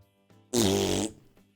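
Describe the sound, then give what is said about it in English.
A single fart, a loud buzzy burst of about half a second that stands out sharply against a faint low background. “Just farted a bug off my arm.”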